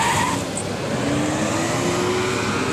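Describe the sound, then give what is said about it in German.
Cars speeding out of a parking lot on a Friday afternoon, a steady moderate roar of engine and road noise with a faint rising whine running through the latter part and no voices. “Und wir schalten da auch mal auf einen Parkplatz. Das so klingt am Freitag um kurz nach 3.”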